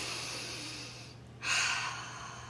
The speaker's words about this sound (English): Who wants to take a breath with me? Because I'm feeling like overwhelmed and anxious. Maybe I just need to like take a breath for a sec.